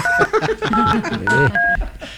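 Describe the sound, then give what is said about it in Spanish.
Telephone keypad dialing tones sound as a call is transferred: a few short, steady electronic beeps separated by brief gaps, over a busy background. “Llamada transferida a Claro.”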